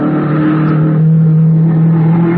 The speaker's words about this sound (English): They were racing in a low, cut-down blue car. The frame had looked familiar as it whizzed by me.